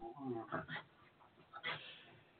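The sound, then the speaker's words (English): Strange grunting, whimpering vocal noises from a dog rolling around on a floor, a few short voiced bursts over about two seconds, fairly faint. “My dog is rolling around on the floor making crazy fucking noises. If you hear some shit in the background that doesn't sound human, it's not.”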